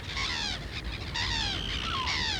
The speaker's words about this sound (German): Kay ist doch ein Papagei. Yes, Kay is a parrot.